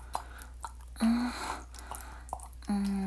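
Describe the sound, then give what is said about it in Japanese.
Wet squelching sounds from genital self-stimulation: faint, irregular sticky clicks and squishy smacks in a quiet setting, with a low steady hum underneath. “ぐちゅぐちゅすごい音してきた。”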